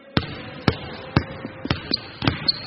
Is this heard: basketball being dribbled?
yes